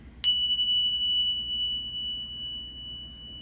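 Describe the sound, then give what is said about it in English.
A single meditation bell is struck once. Its clear, high ring sustains and slowly fades over about three seconds, with no voices. “let's take a breath and ring the bell”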